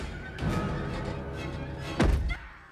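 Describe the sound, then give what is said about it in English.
Fists pound on a glass window in a few dull, heavy thuds, the strongest blow landing near the end, over a continuous murky background. “Gail shrinks back amongst the stacks of equipment as the killer pounds the glass.”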